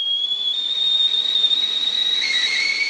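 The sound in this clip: Kettle whistle: a steady, piercing high tone holds for about three seconds, and a second, lower whistle tone joins it near the end.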